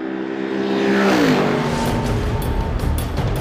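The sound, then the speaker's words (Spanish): A Mercedes SLS AMG GT3 race car engine roars past on a racing track at 280 km/h, a loud, dense engine note whose pitch drops sharply as the car goes by, followed by a sustained rushing roar. “Es el motor del Mercedes SLS AMG versión GT3 a 280 kilómetros por hora.”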